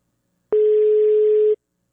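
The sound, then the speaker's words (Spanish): A telephone tone while a call is being placed: one steady, clean mid-pitched tone that lasts about a second and starts and stops abruptly. Nothing else is heard. “A ver, ahí se me cortó a mí. A ver, te estoy marcando, Jocelyn.”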